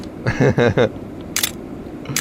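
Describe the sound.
Camera shutter clicks as photos are taken during tedious disassembly of electronics with tiny connectors; a brief stretch of talk is followed by two sharp, separate clicks.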